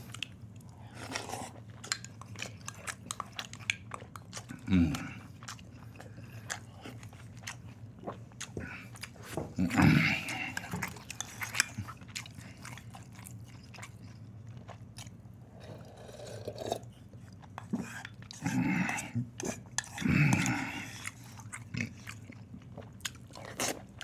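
Someone chews and bites while eating spicy beef hot pot soup with meat from a meal kit. Soft, wet chewing runs throughout, and a few louder crunchy bites stand out.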